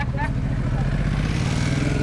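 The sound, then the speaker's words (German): A city bus rumbles by in the street, its low engine drone steady and fairly loud, shifting slightly in tone after about a second. “Ein 63er fährt vorbei. Ein 63er fährt ein. Bus 63, 13.25 Uhr.”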